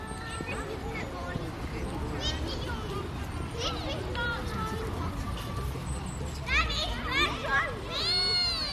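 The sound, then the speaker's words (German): Children playing on a lawn, a whole group out with their teacher, many high young voices shouting, calling and chattering over one another in a lively jumble, with louder excited bursts toward the end. “Dafür ist eine ganze Traube von Kindern mit ihrem Kinski-Lehrer auftaucht. Sie haben den Rasen genauso bespielt”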